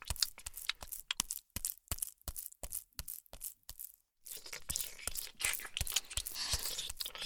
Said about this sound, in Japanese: 今度は、右乳首が舐められてるよ。右の私が、美味しそうに舐めてるね。